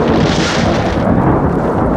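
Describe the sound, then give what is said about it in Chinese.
Thunder with no rain, a loud, dense, continuous rumbling roll that stays strong for about two seconds. “哎，是不是下雨呀？外面？ 没有啊，干打雷不下雨，都好几次这样了。”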